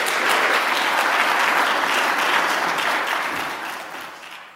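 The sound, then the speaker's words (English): Audience applause welcoming a speaker to the platform during a gathering where an offering is collected: dense, steady clapping that holds strong throughout before gradually fading toward the end. “I want you to put your hands together and welcome Mike Blackwood to the platform, if you would.”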